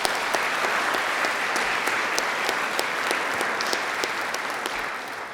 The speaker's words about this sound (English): Will you give them a hand?